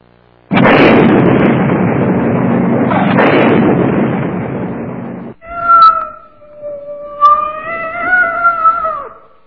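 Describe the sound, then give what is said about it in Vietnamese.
A cat's long, anguished yowl from a cat trapped in a smouldering trash-burning pit. It follows a loud, sustained roaring burst, as a sealed cardboard box ignites and explodes. The wavering, high wails come after the roar ends. “Một tiếng meo dài thảm thiết vang lên”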